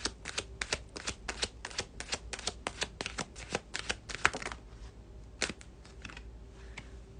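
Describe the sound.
Tarot cards being shuffled and drawn make a quick run of many crisp, papery snaps and riffles, then a few sparser, softer card clicks toward the end.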